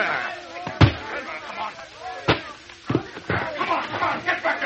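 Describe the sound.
Men break down a door together: a few heavy, unevenly spaced thuds and bangs, with voices talking throughout.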